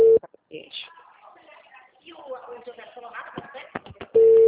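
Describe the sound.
Ringing tone of an outgoing phone call: a short steady tone cuts off at the start, muffled voices and rustling follow, and the same steady tone returns at the end.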